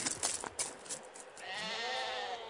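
A herd of livestock being led to water bleats faintly. A few short, choppy bleats are followed by a longer, wavering bleat that holds to the end.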